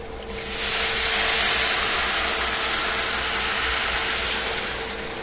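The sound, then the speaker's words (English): Fish dropped into hot oil sets off a loud, steady sizzle that starts abruptly and holds as a dense, crackling hiss to the end, with a faint constant tone underneath and no talk. “so I'm getting ready to go back here and drop this fish. So this is our chief cooking here. I'm making four cheese rice, homeboy, and we're going to drop some fish.”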